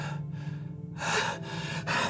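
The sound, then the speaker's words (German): A woman breathing hard, almost hyperventilating under a mask: quick, gasping breaths that come in a few loud bursts over a low hum. “Sie beginnt stark zu atmen, fast zu hyperventilieren unter der Maske.”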